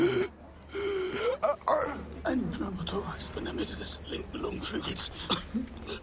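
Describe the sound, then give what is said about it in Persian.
Person with a lung problem from a broken rib gasping and struggling to breathe: ragged, strained breaths and hoarse, broken sounds, with voices mixed in throughout. “یکی کمک کنه، یکی کمک کنه. نمیتونه نفس بکشه.”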